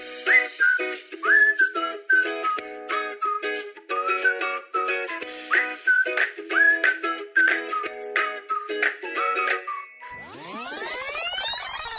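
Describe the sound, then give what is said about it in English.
Someone whistles a TV show's theme tune: a lively melody of short and held whistled notes in a steady rhythm, carried along for about ten seconds before a different swept tone takes over at the end. “You played along the game when I started whistling the theme song.”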